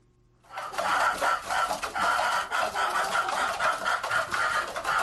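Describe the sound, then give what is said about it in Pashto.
Chickens cluck and crow, a flock of about a hundred kept in an old mud-brick house in a village of Gurbuz district, Khost. A loud, dense, continuous chorus begins abruptly after a brief quiet start, with no talk. “کابو سل چرګان د خوست مرکز جنوب ته د ګربز ولسوالۍ د شیخانو کلی په هغه پخوانی خټین کور کې ساتل کیږي”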